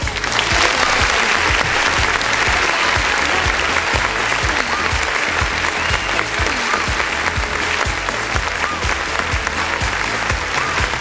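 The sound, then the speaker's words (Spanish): Applause from a group, dense and steady clapping that holds at an even, loud level throughout without a break. “Vaya para ustedes este aplauso que también nos da cuenta de que comienza a acabar la edición del día de hoy.”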